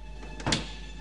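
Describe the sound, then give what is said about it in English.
A cabin door closes in one brief, soft sweep-and-thud near the middle, fairly quiet above a steady low hum. “She closes the cabin door.”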